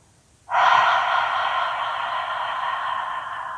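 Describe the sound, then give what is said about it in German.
A deep, complete exhale during a guided stress-relief tapping exercise: one long, breathy rush of air that starts abruptly, holds steady and eases off only slightly over about three seconds. “Tief und vollständig ausatmen.”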